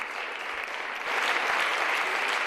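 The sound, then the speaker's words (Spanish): Applause greets a team at an official welcome reception. Dense, steady clapping from many hands swells louder partway through. “Una recepción marcada por las palmas, aplausos, muchos aplausos en la bienvenida y también en la despedida.”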